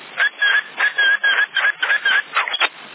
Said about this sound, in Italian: c'è qualcuno sta mandando portante e sta fischiando. Chi è avanti? Lo sentite? Sì, un fischio